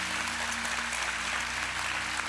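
An audience at a church convention applauds in a dense, steady wash of clapping with no distinct individual claps. A low, constant hum lies underneath.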